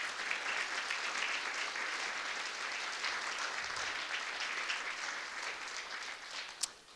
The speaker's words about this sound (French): Hey, on peut donner une bonne main d'applaudissement à Dieu, frères et sœurs, pour ça, là.